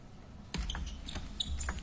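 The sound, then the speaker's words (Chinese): Table tennis ball being struck and bouncing on a serve in a team quarterfinal match: a few short, sharp, quiet ticks over a low murmuring background. “看梁俊坤的发球，”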